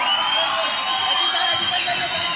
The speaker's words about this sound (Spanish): ¡Fuerte la ovación para el campeón!